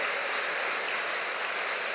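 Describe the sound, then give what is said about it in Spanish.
A church audience applauds a group of Augustinian sisters. The even, fairly soft patter of many hands clapping continues steadily without a break. “Miren, ahí están las Agustinas, denle un aplauso a las hijas de mamadita.”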